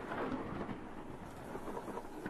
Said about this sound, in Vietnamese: tiếng sấm, tiếng sét, tiếng lửa cháy đôm đốp, tiếng mưa rơi ào ào, tiếng cuồng phong gào thét vô cùng kinh sợ.